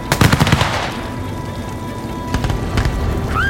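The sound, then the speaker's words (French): Soldiers' gunfire on a captain's order to shoot during a massacre: a rapid burst of sharp cracks, then quieter steady hiss, then a second, softer cluster of shots. “Le capitaine Drummond, regardant un garçon s'accrocher aux jambes de Robert Campbell Glenlyon en suppliant pour sa vie, donne l'ordre de tirer”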